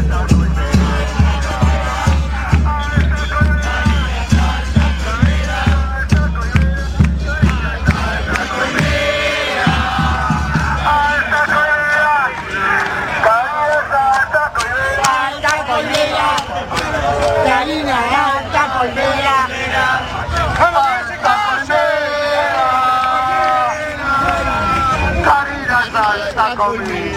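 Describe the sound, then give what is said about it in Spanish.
A large crowd sings together at a multisectorial rally in Plaza del Congreso. The voices are loud and sustained, with a steady rhythmic pulse through roughly the first third before the singing continues more freely. “la CTA bancaria, la multisectorial, ayer cantaba en Plaza del Congreso esto que algunos llaman el hit, no sé si el hit del año, del verano o qué, pero escuchen.”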